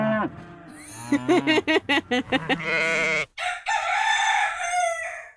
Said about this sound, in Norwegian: det var sauene med òg